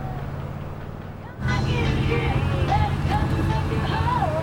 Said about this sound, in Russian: Вдоль реки на большой скорости едет пикап.